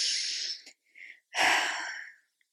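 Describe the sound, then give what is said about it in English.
A deep breath drawn in during a guided calming exercise: a long, airy rush of breath. Shorter breathy sounds come before it, and no one speaks. “take a deep breath in”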